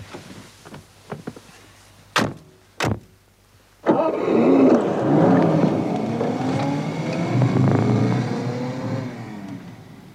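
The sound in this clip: A car engine starts and pulls away after two sharp door-like bangs, its broad roar holding steady and rising in pitch for several seconds. The car stops to give a lift to a driver whose own car has broken down.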